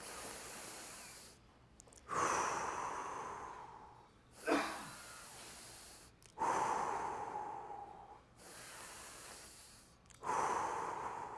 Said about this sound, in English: So I'm going to ask you all to close your eyes. Okay? Take 3 deep breaths.